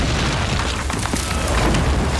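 A German anti-aircraft gun explodes in a wartime battle. The blast is a loud, dense, steady roar of rumbling noise with no separate blasts standing out.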